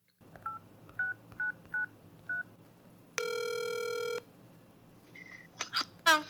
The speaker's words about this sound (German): wir sollten, nachdem wir fertig sind, anrufen und Bescheid geben.